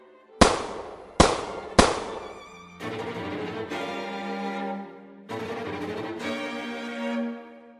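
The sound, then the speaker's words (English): Gunshots fired wildly from beneath a writhing mass of undead: three sharp, loud bangs in quick succession, then longer stretches of rumbling, ringing noise. “With a pain-racking effort, I shifted under the writhing mass of undead, aimed wildly, and fired.”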